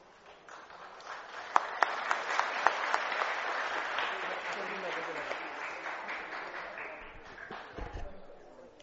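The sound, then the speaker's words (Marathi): Applause from an audience congratulating pupils at a school prize ceremony: steady, dense clapping that lasts about eight seconds, with a few sharper individual claps standing out early on before the sound eases slightly. “जोरात सगळ्यांनी टाळ्या वाजवून त्याचं अभिनंदन करावे.”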